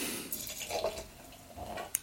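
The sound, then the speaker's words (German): Sparkling wine, a Crémant-style wine aged on its lees, is poured into a glass with a faint, continuous liquid trickle and fizzing. “Ja, ich werde mal den Wein ins Glas füllen.”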